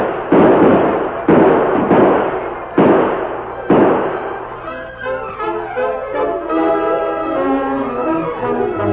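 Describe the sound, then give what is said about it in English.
Gunfire in a radio drama battle scene: four loud, sharp shots at spaced intervals, followed by music. “Open fire, men. Drive them back.”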